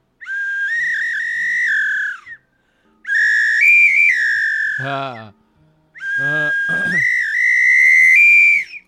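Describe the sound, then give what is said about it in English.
A three-tone samba-style whistle with side chamber holes gives three long, loud, shrill blasts. The pitch steps between tones within each blast, and brief pauses separate them. “What? That's incredible. In various combinations. It's like a samba whistle.”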